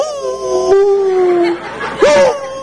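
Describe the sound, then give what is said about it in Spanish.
A small female dog gives loud, tonal howling cries: one long, sustained note that sinks slightly lower, then a shorter second cry that sweeps upward and fades. “Yo tengo una perrita que ahí está. Ahí me la traigo a estudiar.”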